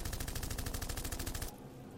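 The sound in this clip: A rapid burst of automatic gunfire fires many rounds in a fast, even rhythm for about a second and a half, then cuts off abruptly. The shots are faint.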